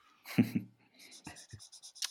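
A pen draws on paper in a few short, scratchy strokes, faint and irregular.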